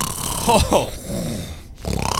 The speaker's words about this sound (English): He sure snores loud.